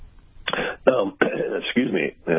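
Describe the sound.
Throat clearing from a person who is speaking: a few rough, raspy vocal bursts in quick succession, fairly loud and with only short gaps between them.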